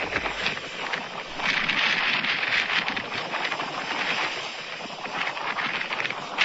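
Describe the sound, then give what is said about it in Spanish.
A stormy sea and strong wind roar at a beach in the Ferrol area, where the sea nearly swept away a van. The rushing noise is loud and continuous, with no voices. “una furgoneta, como escucháis, una furgoneta acabó ayer, o estuvo a punto de ser arrastrada, mejor dicho, por el mar”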